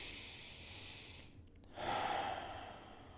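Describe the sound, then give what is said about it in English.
Deep breathing during a guided relaxation exercise: a soft airy breath, then a fuller, louder rush of air that swells and slowly eases off, heard alone with no talking. “Close your eyes, take a nice full deep breath.”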